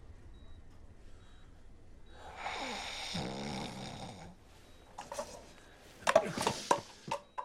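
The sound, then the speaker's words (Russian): A person snores once with a rough, rasping, drawn-out breath over a quiet background, followed by a few short sharp clicks. “Ты еще храпишь, как бегемот.”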